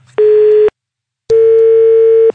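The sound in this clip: A telephone busy tone sounds after the other party hangs up on a call: a loud, steady pure beep, a silent gap, then a second, longer beep.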